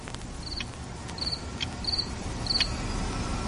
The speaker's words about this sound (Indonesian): Jadi tak ayal jika malam hari sering sekali terdengar suara jangkrik.